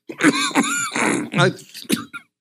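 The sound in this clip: A college football coach at a press conference clears his throat of phlegm in a series of rough, gravelly, voiced bursts and grunting rasps, moderately loud and alone.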